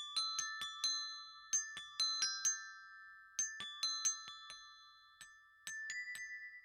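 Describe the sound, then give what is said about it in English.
Bells ring out in many clear, bright struck tones, each leaving a shimmering sustained ring that decays slowly. The strikes fall in quick irregular clusters with short pauses between them, and no voices are heard. “Have you heard those before? That was the sound of the bells.”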